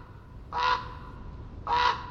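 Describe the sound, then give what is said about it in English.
A raven on the Oregon coast gives two harsh, hoarse croaks, each short and rough-edged and a little over a second apart, with quiet background between them. “A raven calls out. These huge black birds are perfectly suited for the diverse ecosystems of the Pacific Northwest.”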